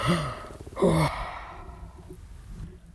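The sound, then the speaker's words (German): A long yawn imitated by a voice: a drawn-out breathy sound that swells into a strong voiced stretch near one second, then fades into a quieter, trailing exhale. “Gähnte lange”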